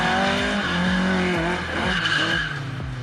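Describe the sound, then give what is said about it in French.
Tires skidding as a rear-wheel-drive Opel Manta oversteers, over a loud, steady engine note with a repeating wavering pulse throughout. “Ce qui est très sympa avec cet Opel Manta, c'est la maniabilité, son côté très survireur. C'est normal, on a quand même toute la puissance aux roues arrière.”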